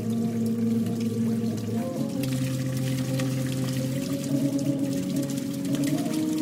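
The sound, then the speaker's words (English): Sustained, resonant tones from a water-jet musical instrument, played by blocking individual jets of water with a finger. A few held notes shift in pitch over a steady watery hiss, with no talking. “Each hole is emitting a jet of water. You take your finger and you place it on one of the water jets, and you block that water jet. So that is the way that you play different musical notes.”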